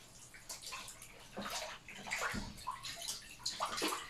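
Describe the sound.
Water sloshes and splashes in a bathtub as a child is bathed, with soft irregular swishes and drips rising and falling quietly, no talking.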